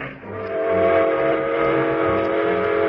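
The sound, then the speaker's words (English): Steam train engines toot their whistles in one long, loud, steady whistle tone over a low rumbling train sound, with no talk. “The train engines tooted their whistles longer and louder, thereby reducing the amount of steam available for hauling freight.”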